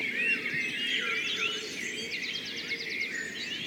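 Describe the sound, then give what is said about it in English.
A dawn chorus of birds calling in a wood just before five in the morning in early May: many overlapping chirps, whistles and quick repeated trills form a dense, steady layer with no voices. “What you're listening to here is the sound of birds calling for mates, or telling other birds to stay away from the territories they've already claimed.”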